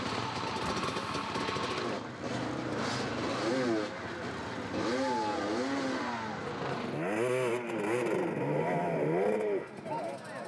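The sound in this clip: Racing motorcycle engines on a rocky road circuit with a 35 km lap, revving in repeated rising and falling pitch sweeps while a voice talks over them throughout.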